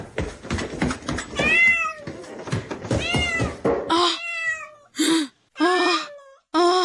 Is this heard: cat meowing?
yes